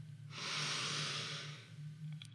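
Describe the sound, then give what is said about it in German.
A single deep breath during a calming breathing exercise: a long, airy rush that swells and fades over about a second and a half, alone over a low steady hum. “Halt kurz die Luft an, atme nochmal tief ein”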